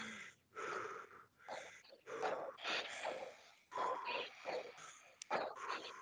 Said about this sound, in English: Let's start doing that short breath.